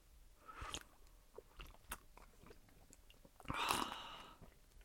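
Quiet chewing and crunching as someone eats freshly gathered asari clams, with a few soft crisp bites early on and a louder, denser crunch near the end.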